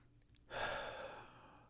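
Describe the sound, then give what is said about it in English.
A single deep breath drawn in through the nose: a soft, breathy rush that swells suddenly, then thins slowly over about a second, heard alone with no talk. “Come on now, do it with me. In through the nose,”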